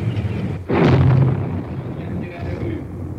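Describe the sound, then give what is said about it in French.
Gunfire crackles in the street fighting of the 1956 Soviet occupation of Budapest, by a hotel near the Danube. A sudden loud burst of machine-gun fire strikes a wall, then fades into rough, noisy background. “Mitrailleuse, vous entendez les balles qui claquent contre le mur.”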